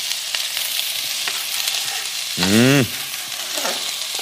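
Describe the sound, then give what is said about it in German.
Onion and garlic frying in a pan with bell pepper, giving a steady, loud sizzling hiss throughout, broken midway by a brief wavering squeak. “Und dann Zwiebel und nach so 1-2 Minuten Zwiebel und Knoblauch hinterher.”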